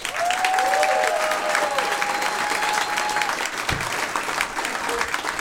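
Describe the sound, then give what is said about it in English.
Audience applause welcoming a comedian to the stage at a stand-up comedy show: dense, steady clapping from a large crowd that stays loud and unbroken from start to finish. “Make a lot of noise for the very funny Tom Simmons.”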